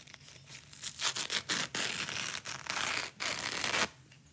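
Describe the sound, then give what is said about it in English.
A paper napkin is ripped apart in many quick, crackling tearing bursts of uneven length, faint and dry, with no talk over it. “I'm going to rip a napkin.”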